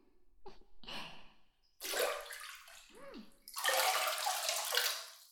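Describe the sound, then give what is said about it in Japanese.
Hot bath water poured over the body before entering the tub. Two long, rushing splashes of water, with soft breathing before them and a brief voiced gasp between the pours. “お湯に入る前に、まずはお湯を浴びてね。”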